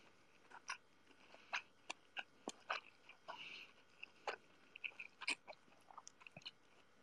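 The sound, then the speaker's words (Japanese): Someone chews a mouthful of cooked rice with many short, moist smacking clicks at an irregular rhythm. The chewing is fairly faint and heard on its own. “ごめんね、なんかご飯噛んでる音聞こえたら。”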